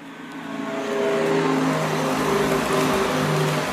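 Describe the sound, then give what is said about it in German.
Synthetic pedestrian warning sound of a Renault Zoe electric car, switched on: layered steady electronic tones over a broad hiss, swelling louder after the first second and then holding level. “So hört sich eine Renault Zoe an, wenn man es eingeschaltet hat.”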